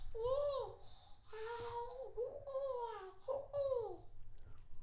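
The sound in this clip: A baby babbles in a crib, giving several voiced coos and syllables that bend up and down in pitch, with brief pauses between the bursts.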